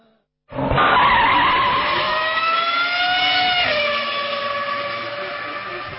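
Race car tires skid in a mobile racing video game: one loud, sustained, bright screech that starts abruptly and runs to the end, its tone easing slightly lower and fading a little in the final seconds.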